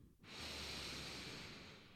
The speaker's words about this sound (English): And I invite you to take a deep breath,